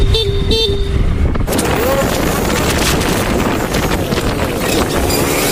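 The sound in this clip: Motorcycle couriers honk a horn at a car in traffic: a few short honks at the start, then heavy rushing wind and traffic noise fill the rest.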